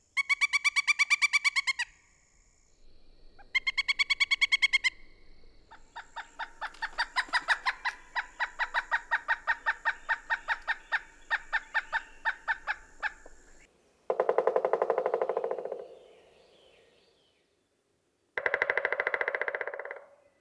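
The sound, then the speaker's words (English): A pileated woodpecker gives loud, repeated harmonic calls, then a long, rapid series of evenly spaced notes, and ends with two dense, noisy bursts that suggest drumming. “Drumming is most common during courtship and to proclaim territory. This is the sound of a pileated woodpecker.”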